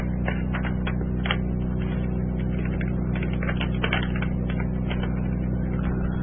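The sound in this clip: A tape machine mechanism runs after its tape seized, with a steady low mechanical hum under rapid, irregular ticking and clicking that continues evenly throughout.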